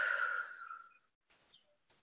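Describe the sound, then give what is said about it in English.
Deep breathing during a guided breathing exercise: a long, loud, breathy exhalation fades out, and after a brief silence a softer, airy breath follows. “Let's just take a deep breath in to begin and just exhale it out.”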